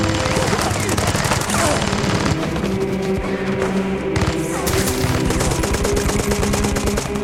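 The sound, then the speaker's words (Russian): Rapid machine-gun fire mowing down German soldiers in a battle scene from the war film White Sun of the Desert, a loud unbroken stream of sharp bursts with heavy thumps mixed in throughout. “Пулемет косит немцев, как траву.”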